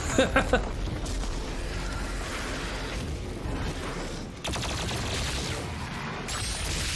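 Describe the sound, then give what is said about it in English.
Gunfire in an arena shooter video game played on console: three quick sharp shots open, then dense, continuous noisy combat sound runs on with a brief dip and another burst midway. “That's a sick gun. Ooh. I love arena shooters, chat, if you didn't know. Especially shotguns”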